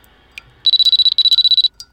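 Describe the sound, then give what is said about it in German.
An electronic telephone rings with two bursts of rapid, high-pitched warbling pulses separated by a brief gap. A few faint clicks come before and after. “Das Telefon klingelt.”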